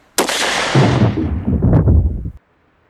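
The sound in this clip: A single gunshot fired at close range at someone's head: a sharp, very loud blast rolls into a rumbling, crackling tail lasting about two seconds, then cuts to silence.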